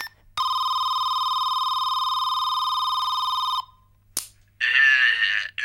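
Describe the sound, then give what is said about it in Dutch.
A telephone rings after a number is dialed: one long, steady electronic ring tone lasting about three seconds, then a click, and a voice begins speaking. “Nou weet ik het opeens weer. Even bellen. 7, 4, 6.”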